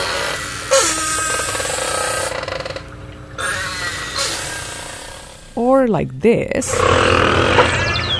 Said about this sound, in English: Of course, the acoustics of normal beluga calls, which sound something like this,